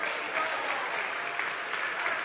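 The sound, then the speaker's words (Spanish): Even, continuous applause from a church audience clapping for the Lord during a service, a soft, dense patter of many hands at moderate-to-low loudness, steady throughout with no distinct individual claps. “¿Te puede darle un aplauso al Señor en esta hora?”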